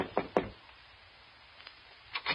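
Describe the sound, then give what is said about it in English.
Knocking on an office door: two firm, hollow knocks, a pause with a faint tap, then two more knocks, with no voices. “so I knocked on the door”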